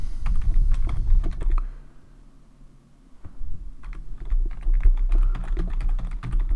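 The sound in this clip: Typing on a computer keyboard while entering account details: many quick, sharp key clicks in uneven bursts, with a brief quieter pause partway through, and no talking.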